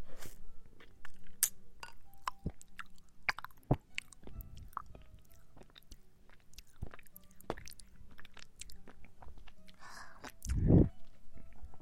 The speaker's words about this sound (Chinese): 来，咬一个洞，然后你来吸。